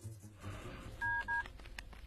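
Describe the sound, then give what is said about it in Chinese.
Two short touch-tone beeps sound as a telephone is dialed for a call, standing out above a faint, muffled background. “这天中午，乔丽娜给苗镇打来了电话。”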